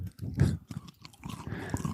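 Crunchy chewing of a caramel chocolate bar with puffed rice during an ASMR session, an irregular run of crisp bites and mastication crackles, fairly faint and with no talking.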